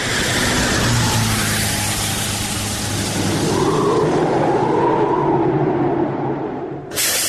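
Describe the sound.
A car drives off, its engine and road noise forming a loud, steady roar that holds throughout, with a brief dip and a sharp burst near the end.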